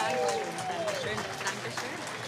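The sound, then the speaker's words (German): An audience applauds a performer, a steady wash of many hands clapping with voices mixed in throughout. “Also wunderbar, einen ganz großen Applaus für Victoria Wochner aus Freiburg.”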